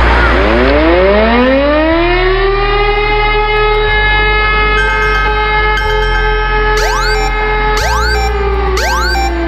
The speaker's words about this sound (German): Na, schon erschrocken? So oder so ähnlich klingt es morgen auch bei uns. Es ist nämlich mal wieder bundesweiter Warntag